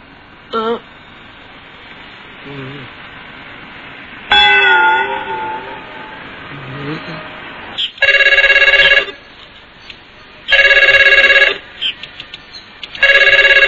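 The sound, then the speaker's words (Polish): A telephone rings in an animated cartoon: a few loud bursts of bright, buzzing electric bell with short pauses between them, coming after softer earlier sound effects. “Ale telefon na... Telefon dzwoni od rana.”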